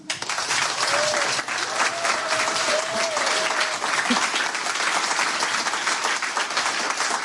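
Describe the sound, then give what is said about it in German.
Applause from a full studio audience: steady, dense clapping that holds at an even, loud level throughout, with a faint whoop near the start. “Und zudem haben wir ein sehr entspannt aussehendes Publikum, das anwesend ist, und zwar vollzählig. Das heißt, es ist richtig voll. Und wenn es richtig voll ist, klingt es auch extrem voll.”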